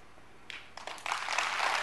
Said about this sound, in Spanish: La gente aplaude.